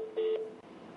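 A single short telephone keypad tone while an office call is transferred to voicemail: one steady electronic beep, fairly loud, followed by quiet line hiss.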